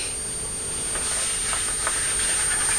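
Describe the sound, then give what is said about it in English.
A big steam tank engine hisses, giving off a broad, continuous rush of steam that stays steady and fairly loud throughout. “Big choo-choo. That's a very big Thomas the Tank Engine, isn't it?”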